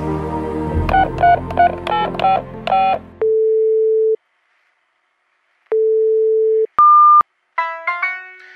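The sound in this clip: Telephone dialing tones: a rapid run of short tonal beeps, then long steady tones separated by silence and a brief higher tone, ending in a burst of ringing harmonic tones.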